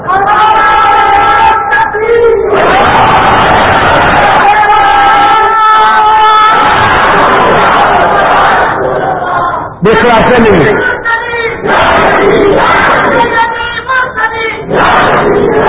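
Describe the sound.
A crowd at a sermon shouts a religious slogan (naara), loud massed voices rising in several strong bursts of collective shouting, with a speaking voice heard between the crowd's responses.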